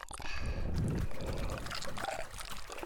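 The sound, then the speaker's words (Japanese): Liquid trickles and splashes as lotion dissolved in hot water is poured, a soft, fairly quiet wet pouring sound lasting a few seconds. “ローションをお湯に溶かして、”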